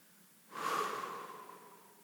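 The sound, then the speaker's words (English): A deep breath drawn through the nose: one airy rush that starts abruptly, swells and then slowly tapers, with a faint whistling tone inside it and no voices. “Take a deep breath in through your nose, out through your mouth.”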